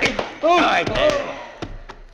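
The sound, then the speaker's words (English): A pistol used to strike someone: a few short smacking thuds with a strained vocal cry through the middle. “Gun whip him”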